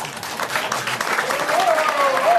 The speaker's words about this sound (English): So you're beginning. You're beginning with applause.